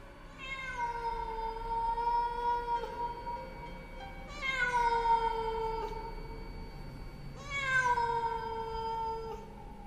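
A cat yowls eerily in three long, drawn-out cries. Each cry starts high and slides downward, loud and with nothing else over it.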